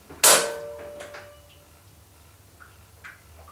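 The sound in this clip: A door lock is unlocked by hand while the handle is grasped, giving one sharp, loud metallic clack with a short ringing tail, followed by a few faint, scattered clicks.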